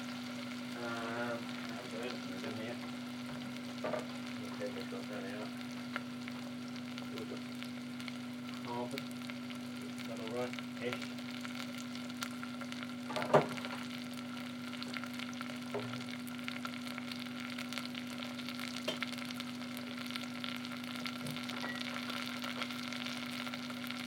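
Potatoes fry in a pan with a steady, soft sizzle, scattered crackles and pops, and an occasional stirring scrape over a low, constant hum.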